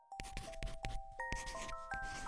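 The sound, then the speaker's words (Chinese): A pencil scratches out the outline of a flower on paper in quick, rough strokes, mixed with bright chiming tones. “奶奶很认真地用铅笔勾勒出花朵的轮廓，然后用颜料涂色。”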